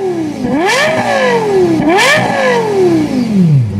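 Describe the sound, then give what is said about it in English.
A Lexus LFA sports car engine revs hard: a loud, high-pitched wail climbs twice in quick succession, then winds down in one long, falling whine, with no voices. “so you can decide if Lexus succeeded in their goal of creating this sound in a production car. So here's the sound of the LFA.”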